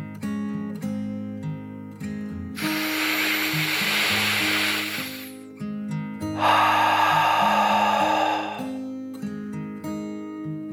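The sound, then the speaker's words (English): A deep breath in and then out, a slow 'dragon breath' in a guided meditation story: two long, airy rushes of roughly three seconds each, separated by a short pause, over steady background music. “They took another deep dragon breath, in and out.”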